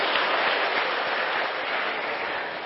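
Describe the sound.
A classroom audience of students applauds with steady, dense clapping that fills the whole stretch, with no talk over it.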